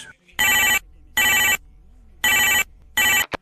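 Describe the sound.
A telephone rings in a radio advert: four bright, high-pitched electronic ringing bursts at an even pace, separated by short silent gaps, with a brief blip at the very end.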